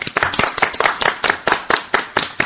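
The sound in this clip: A group in a television studio claps in unison for a child contestant on a riddle show, sounding many sharp, loud, evenly spaced claps in a quick steady rhythm.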